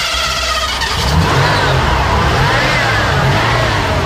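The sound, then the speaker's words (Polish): A 1991 Ford Crown Victoria police car with a 5.7-litre engine runs loudly at a classic car gathering in Szczecin, its deep rumble steady and continuous with a slightly wavering pitch throughout. “No to jest jeden z bardziej takich kultowych samochodów, Ford Crown Victoria rocznikowo 91.”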